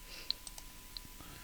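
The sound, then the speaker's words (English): A few faint, crisp mouse clicks on a work computer, light isolated taps against a quiet, steady background. “I'm careful of what I'm trying to click on here because it's a work computer.”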